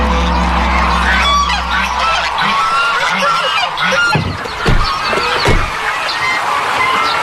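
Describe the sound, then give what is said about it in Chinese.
Lion-head geese, China's largest goose breed, with heavy frames and black fleshy crests on their heads, honk repeatedly. Many loud, brassy calls overlap in a noisy flock chorus, with a steady low hum beneath the opening seconds. “身披棕榈，骨架粗壮，头顶黑色肉冠，这是中国最大的鹅——狮头鹅。”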